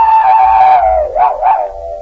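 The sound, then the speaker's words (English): A man's voice imitating a dog howling: a sustained, wavering howl that slowly sinks in pitch, then swells into two quick wavering surges before trailing off. Loud and alone. “Was that a dog?”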